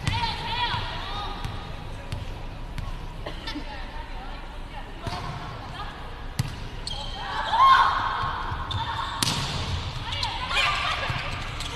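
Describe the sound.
A volleyball thumps sharply as it is bounced and then served in a Shandong team match, several distinct impacts sounding over a commentator's talk and low arena murmur.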